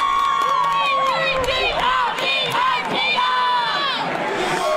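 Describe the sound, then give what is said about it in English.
Philadelphia Eagles football fans cheering and shouting, a loud, unbroken mass of overlapping voices with high whoops and yells throughout. “So if we were fans of the Super Bowl and our team lost or our team won, you got any idea what it might sound like? Yeah, I think I have an idea. It might sound a little bit like something like this.”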